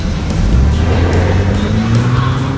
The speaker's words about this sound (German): Alle Kameras waren auf den heranrasenden Jeep gerichtet.